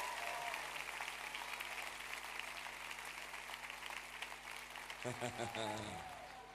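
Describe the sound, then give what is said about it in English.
A church audience hand clapping for the Lord during a worship service: a dense, steady wash of applause at a low level, with a voice speaking over it near the end. “Give the Lord another hand clap. Amen.”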